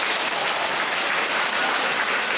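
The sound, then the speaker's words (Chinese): Applause from an audience, a dense, even wash of many hands clapping that stays at a constant, fairly loud level throughout with no voices over it. “鼓掌。”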